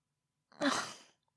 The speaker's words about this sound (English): Stop breathing on me.